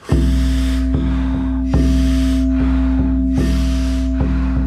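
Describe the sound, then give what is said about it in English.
A big breath in, then out through an open mouth, during a guided breathing exercise: a few long, soft, breathy rushes of air over a steady low tone. “take a nice big inhale. Open the mouth, exhale.”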